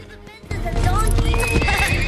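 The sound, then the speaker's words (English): A fine black horse snorts, rears and canters across the grass: a noisy snort gives way to loud, continuous hoofbeats with whinny-like cries over them. “The horse snorts, rears and canters across the grass towards them.”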